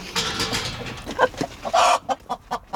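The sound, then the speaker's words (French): Chickens cluck in a henhouse: a steady run of short, throaty clucks and squawks, with one louder, longer drawn-out call partway through, then more clipped clucks. “C'est le poulailler.”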